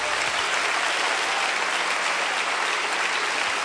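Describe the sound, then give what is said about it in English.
An audience claps in praise during worship, producing a dense, steady wash of many hands that stays even throughout with no voices over it. “Come on, clap your hands and give God praise in this place.”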